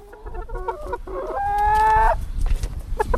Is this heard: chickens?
yes